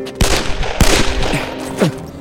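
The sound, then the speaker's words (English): Gunshots in an ambush: a few sharp, loud cracks at irregular intervals, with later shots trailing off into falling whizzing tones. “Another shot hit the seat inches from Sam's head. I suspect they may be after me.”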